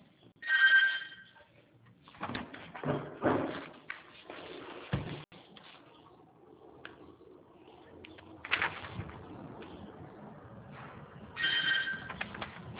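A phone line rings while a call is being redialed. A narrow, muffled ring tone sounds briefly at the start and again near the end, with faint line noise and muffled sounds in between.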